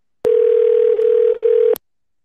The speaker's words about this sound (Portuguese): Tô chamando aqui, mas não tá querendo subir, viu? É, deve ser Android, né, cara? Vou ligar pra ele, peraí.